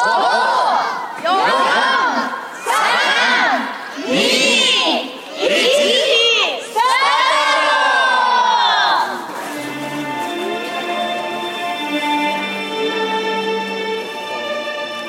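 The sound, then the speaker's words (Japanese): Crowd cheering and shouting at an outdoor nighttime event as fantastical images are projected onto a castle keep's wall: several loud shouted bursts, then a longer sustained cheer, followed by steady music. “天守閣の壁に幻想的な映像が映し出され、会場には歓声が上がりました。”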